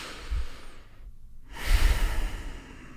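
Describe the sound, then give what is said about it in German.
A deep breath during a guided relaxation exercise: a soft, airy inhale, then a brief pause, then a longer and louder exhale that fades out slowly. “Nehmen noch mal einmal 2, 3 tiefe Atemzüge.”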